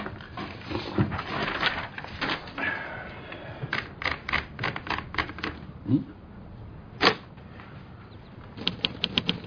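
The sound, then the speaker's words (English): Typewriter keys are punched in uneven bursts. The fairly faint stream of many sharp mechanical clacks has short pauses, a few louder strikes and a quick run of taps near the end. “I'm writing. Like you'll be when you start punching those keys.”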